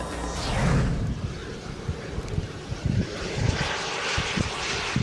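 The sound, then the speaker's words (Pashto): Steady roar of an unmanned experimental aircraft built by UK researchers, a design with no moving parts; broad, continuous engine-like rush holds at an even loudness throughout, with no voices. “د ماګما په نامه دغه الوتکه په خپل ډول کې یوه خاصه بي پیلوټه الوتکه ده.”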